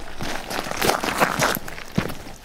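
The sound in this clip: Footsteps of people walking uphill outdoors among fenced grazing pastures. A few soft, irregular scuffing steps sound at moderate loudness, with no voices.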